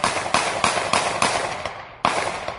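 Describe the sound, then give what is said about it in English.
Gunshots fired by a police officer, heard on the officer's video recording: several loud, sharp cracks in a quick, steady rhythm, then a brief pause and one more shot. “I want to hear that video. The sound from that video of the cop shooting.”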